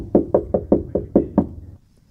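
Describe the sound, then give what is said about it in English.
Knocking on a door: seven evenly spaced, firm knuckle raps in a quick steady rhythm, each a short dull thud, followed by quiet. “Door knock number two.”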